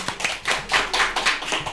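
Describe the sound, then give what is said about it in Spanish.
A studio audience applauds during a Spanish television quiz game show between scoring rounds. The clapping is fairly loud and arrives in quick pulsing surges that keep rising and falling. “Bravo, un aplauso, por favor.”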